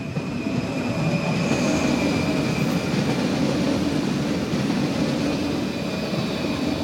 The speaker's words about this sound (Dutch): Weer een aan, hè? Ja, kan een goederentrein zijn of een, dat is altijd een verrassing.